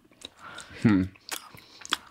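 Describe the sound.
Someone chews a wet, oat-flour-based baked good, with soft moist bites and crunches and a brief murmured vocal sound in the middle.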